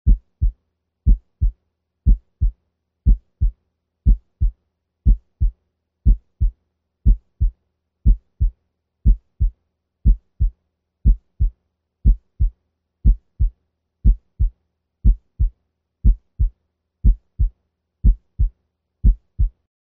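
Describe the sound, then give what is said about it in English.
Normal S1 and S2 heart sounds in the tricuspid area at 60 beats per minute: low, dull paired thumps repeat steadily about once a second, each a longer, louder, lower first sound followed by a shorter second one. “We will now listen to the normal S1 and S2 in the tricuspid area. Note that S1 is also longer, louder, and lower pitched than S2 when heard in the tricuspid area. We will listen first at 60 beats per minute.”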